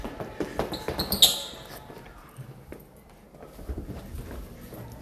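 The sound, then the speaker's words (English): Footsteps walking in an ASMR recording: a few soft, muffled thuds early on, then quieter, scattered steps and light shuffles. “ASMR foot walking.”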